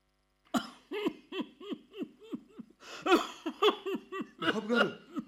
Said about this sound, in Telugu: దగ్గు బాగా ఎక్కువైంది బాబు.